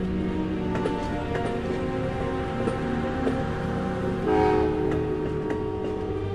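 Trains at a railway station in Ghent give off a steady rumbling, tonal drone with faint clanks throughout. A brief, louder tonal swell like a horn rises partway through, and no voices are heard.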